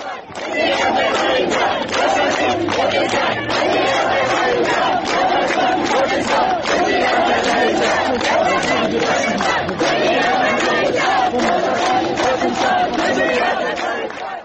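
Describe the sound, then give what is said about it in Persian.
Medical students in Kurdistan chant slogans at a protest, a loud crowd shouting in unison with a steady, pulsing rhythm that stays strong throughout. “گزارش ها نشون میده که دانشجویان علوم پزشکی کردستان شعارهایی از جمله یا شاسین کردستان بجی آذربایجان سر دادن. بشنویم صدای دانشجویان کردستان.”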